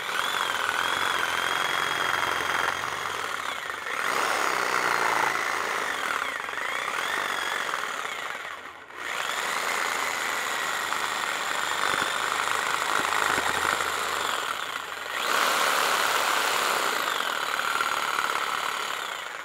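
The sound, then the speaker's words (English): Blade cutting into a hammerhead to widen the kerf, a steady, harsh grinding buzz running continuously with a few brief dips, and no talking. “Now I'm going to turn my blade around. I'm going to work it back inside here to widen the kerf up at the top.”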